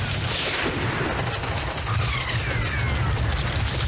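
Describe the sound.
Gunfire in a battle: dense, rapid shots and machine-gun bursts overlap into one loud, continuous barrage with no pause from start to end.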